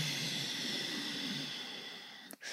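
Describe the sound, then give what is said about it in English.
A long, slow inhalation taken during guided meditation: a steady, airy hiss of breath that holds evenly for over two seconds, then breaks off briefly near the end. “can you say thank you to the flower, the vegetables, this mystical field by taking a long, luxurious inhalation?”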